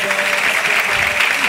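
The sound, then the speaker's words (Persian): Dense crowd applause, many hands clapping loudly and steadily with no clear pause, a faint tonal voice running underneath. “یا علی مدد دست بزن”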